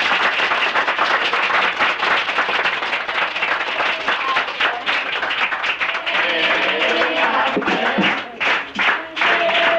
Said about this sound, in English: Applause.